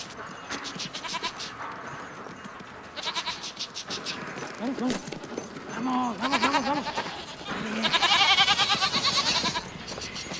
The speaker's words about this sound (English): Opening the gate, he enters the pen and begins ushering the goats out into the open.